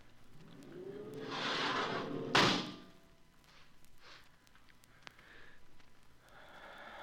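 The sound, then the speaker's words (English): An outer airlock door opening: a hiss swells over a second or so and ends in a single heavy thud, after which the sound decays into a low background with a few faint knocks. “Lustig, open the outer airlock.”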